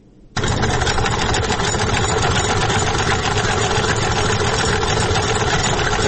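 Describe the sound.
Hand-turned sewing machine running as a woman tailor in Kunar, Afghanistan stitches clothes: a dense, steady mechanical whir that starts abruptly after a faint moment and then continues loud and unbroken to the end, with no voices.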